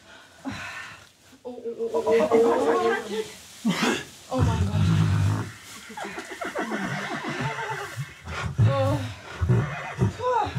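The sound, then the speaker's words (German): Neighing of a mare and her newborn foal at a horse breeding stable: a few shaky, wavering whinnies, some loud, mixed with people talking and exclaiming around the animals. “Das Fohlen macht sofort einen agilen Eindruck. Dagegen scheint die Stute schwer mitgenommen.”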